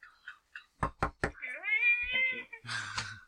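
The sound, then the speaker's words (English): Three sharp, quick knocks on a door in a tight even rhythm, followed by a drawn-out, cat-like meow and a final breathy burst. “Walk up to the door and knock on it.”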